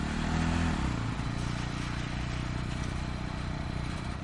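A motorcycle ridden with a passenger seated behind, giving a steady, fairly faint engine and road roar with a broad rushing texture; a lower engine drone is heard at the start and fades after about a second.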